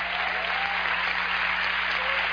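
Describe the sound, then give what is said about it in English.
A church audience claps together in a dense, sustained patter of many hands, with a low steady hum underneath. “I say you ought to clap. If you can clap, let everybody clap.”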